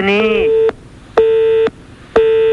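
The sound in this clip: A telephone busy tone after a caller hung up: loud, steady beeps of equal pitch, each about half a second long and separated by even gaps of the same length, repeating in a strict rhythm.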